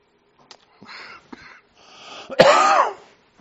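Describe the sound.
Coughing and throat clearing from a speaker addressing an audience: a few short, soft rasping clears, then a building breathy rasp and one loud, harsh, ragged throat-clearing burst near the end, with no talk.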